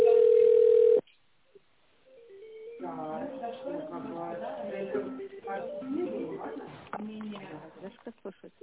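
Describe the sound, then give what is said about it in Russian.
A telephone ringback tone as a call is transferred to technical support: one steady, mid-pitched tone lasting about a second, then a short silence before a voice starts talking. “звонок переводится в службу технической поддержки.”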